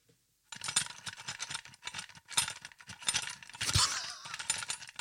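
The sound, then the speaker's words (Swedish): Pen holder filled with scissors, glue and other small items shaken right beside a microphone, giving a dense, continuous clattering rattle of jostling hard objects after a brief moment of silence. “pennställ här med sax och lite lim och grejer som har skakat bredvid mikrofonen”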